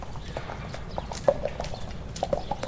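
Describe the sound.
Arabian horse trotting at the Marbach stud, its hooves clip-clopping in a brisk, even rhythm. The hoofbeats are fairly soft, with one sharper strike in the middle, over a low background hum.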